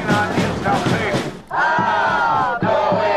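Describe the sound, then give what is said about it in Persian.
Crowd of protesters at a rally in Tel Aviv calling for a hostage-release deal and an end to the war, loudly chanting and shouting together in rhythmic bursts, with a short dip near the middle and a brief break shortly before the end. “تظاهرات هزاران اسرائیلی در تل آویو با خواست نهایی شدن توافق برای آزادی گروگان‌های اسیر در دست گروه افراطی حماس و پایان جنگ در نوار غزه.”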